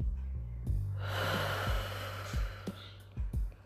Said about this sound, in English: take a nice deep breath. Arms above your head. Stretch.